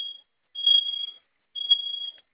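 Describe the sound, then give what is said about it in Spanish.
A fire alarm panel sounds in shrill, high-pitched electronic tones, each held for over half a second and repeating with short silent gaps, alone and fairly loud. “¿Se silenció la primera alarma?”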